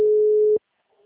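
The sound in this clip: A telephone tone after a dropped call: one steady, single-pitched tone held loud for about half a second, then cut off abruptly into near silence.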